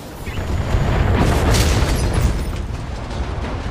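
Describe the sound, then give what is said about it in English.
Deep explosion from an LRM missile blowing up a building in a mech video game, a loud rumbling boom that swells over the first second and a half, then decays into a long crackling rumble. “One of the LRMs went wild and, like, blew up one of the buildings in the path.”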